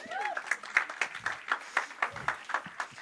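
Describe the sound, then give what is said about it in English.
An audience claps for a group of young women called to the front, a steady rhythmic beat of many even claps. A voice is briefly heard at the start. “Give me a round of applause.”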